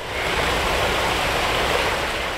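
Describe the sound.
A waterfall gives off a steady, dense rush of falling water, a constant loud roar with no breaks.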